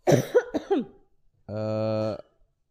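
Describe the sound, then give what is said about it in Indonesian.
A few sharp, harsh coughs in quick succession, rough and breathy, with a short pause afterward and no talk. “Batuk ya? Batuk lo.”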